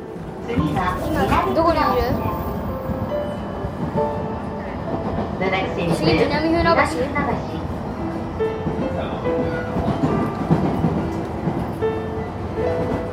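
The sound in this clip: Steady low rumble and rolling noise inside a train carriage running on rails, continuous throughout, with a man talking over it.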